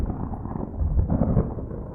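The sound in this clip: Thunder from an approaching thunderstorm rolls as a muffled, low, continuous rumble that swells slightly midway and then eases.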